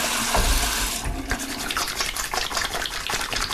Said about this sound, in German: Ja, Hände waschen.